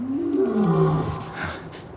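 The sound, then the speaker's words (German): A lion roars once, a deep growling call that sinks lower in pitch and trails off over about two seconds. “Nicht irgendein Löwe. Na, ich hoffe, der Löwe sieht das auch so.”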